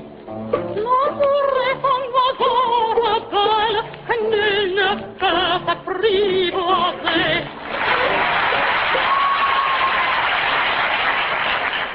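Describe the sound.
Audience applause at a singing contest between a tenor and a soprano: after about seven and a half seconds of someone talking, a broad, steady clatter of clapping bursts in and carries on to the end.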